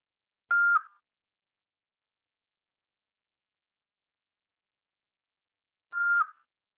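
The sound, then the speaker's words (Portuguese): A voicemail recording beep sounds twice. Each is a short, mid-high tone, and several seconds of silence separate them. “Sua chamada está sendo encaminhada para a caixa de mensagem. Estará sujeita a cobranças após o sinal. Após o sinal, fale seu nome e deixe seu recado.”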